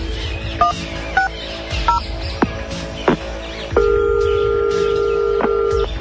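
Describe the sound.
A telephone is dialed to call a guard at a resort: three short keypad beeps and a couple of clicks, followed by a long, steady ringing tone over a constant background hum.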